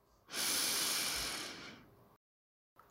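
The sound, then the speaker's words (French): A deep breath is drawn in through the nose: one loud, rushing hiss that swells quickly, holds, then tapers away over about two seconds before silence. “Inspire par le nez.”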